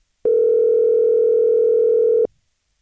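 A telephone call tone for a call that goes unanswered, one steady electronic tone held for about two seconds before cutting off into silence.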